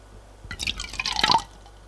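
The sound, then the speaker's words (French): A drink is poured from a bottle into two glasses: a quiet trickle and splash of liquid lasting about a second, set against a faint steady hum. “Elle revient avec deux verres et la bouteille. Fait le service.”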